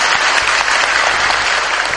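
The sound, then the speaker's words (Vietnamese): Audience applause at a Buddhist gathering, a dense, steady wash of many hands clapping at once, loud and even throughout with no pauses or voices standing out. “Và tất cả mọi người cũng vỗ tay hết.”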